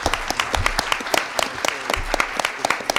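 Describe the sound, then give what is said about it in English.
Applause from an audience at a conversation event: a busy spray of individual claps, with sharp, bright accents popping out of a steady, moderately loud clatter. “And we owe you a round of applause.”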